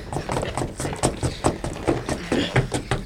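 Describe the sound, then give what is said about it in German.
Feet stamp on a wooden plank floor in a steady run of many hollow thuds, each knock sharp and evenly spaced. “Trampelt auf dem Boden herum, bis ihr eine Stelle findet, die auffallend klingt.”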